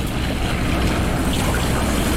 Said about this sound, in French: ces sons de... du ressac, du clapotis des vagues contre ces récifs.